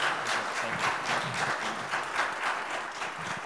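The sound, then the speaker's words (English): A church audience applauds to welcome a preacher, dense steady clapping from many hands that holds at an even level throughout. “let's put our hands together one more time”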